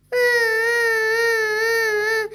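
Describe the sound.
A crying wail sounds as one sustained, high, tonal cry with a slight waver in pitch. It starts abruptly, holds steady for about two seconds, then breaks off. No other voices are present.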